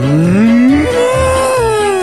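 A cow mooing on a dairy farm: one long, loud, continuous moo that climbs in pitch over its first half, then holds steady and sags slightly toward the end.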